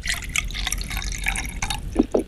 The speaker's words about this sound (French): Ça coule, là? Oui, il y en a plus, ça y est, j'ai vidé la bouteille.